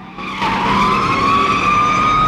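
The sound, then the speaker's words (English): Tyres squeal loudly as a car corners hard while a police squad car chases it. A sustained, steady high screech runs unbroken over engine noise, its pitch creeping slightly upward. “The approaching sheriff eyeballs Bond, who calmly reverses, spins the car around and drives away. Bond spots another squad car close behind, then corners hard.”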